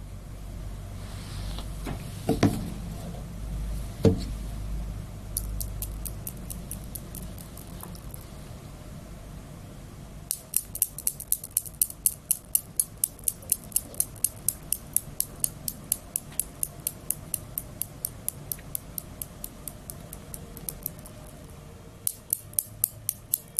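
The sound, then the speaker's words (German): Many quick, regular scratchy strokes of drawing on paper form a steady rhythmic pattern through the second half. They follow a couple of louder knocks and lighter rapid scratching near the start. “Also es geht los mit dem Zeichnen. Und Action.”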